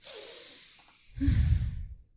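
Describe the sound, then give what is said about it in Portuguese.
A person takes a deep breath: a long, soft, hissing inhale, then a louder, breathy exhale. “Então, deixa eu respirar.”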